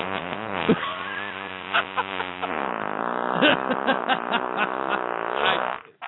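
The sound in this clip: A long, drawn-out fart noise that buzzes on for about six seconds, its pitch wavering up and down with sputtering bursts before it trails off.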